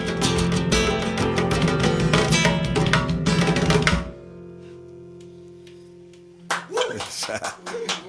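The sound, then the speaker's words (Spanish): Audience applause after a drum performance: a dense, loud burst of clapping that cuts off abruptly, leaving a quiet low hum, before a voice begins speaking. “Aplausos, aplausos, aplausos.”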